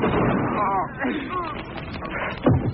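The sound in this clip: A gunshot in a radio drama: agitated voices speak, then a single sharp blast rings out near the end.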